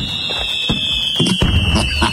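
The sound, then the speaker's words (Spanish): Fireworks sound effect: a sustained high whistle runs through a series of sharp bangs and crackling bursts, loud and busy across the whole clip. “Fuegos artificiales y todo el rollo”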